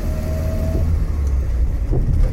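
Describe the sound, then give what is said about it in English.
Steady engine drone and road rumble from an Austin A40 Farina with the 998 A-series engine while driving. The low, continuous hum stays even throughout, with no distinct bursts or gear changes. “sounds almost closer to that of my dad's 30s cars, even though it's the engine that's only the one just before Peggy's. It's the 998 A-series rather than the 1098.”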